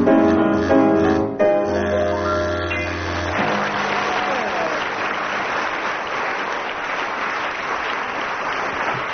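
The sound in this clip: Audience applause at a 1979 radio show swells as a burst of music ends. It then carries on as dense, even clapping for several seconds.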